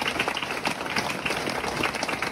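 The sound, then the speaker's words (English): Audience applause at a youth award ceremony, a continuous rattle of many hands clapping at a fairly even, moderate loudness with light crowd noise mixed in. “Please give another round of applause for all our inspiring, deadly young people up here today.”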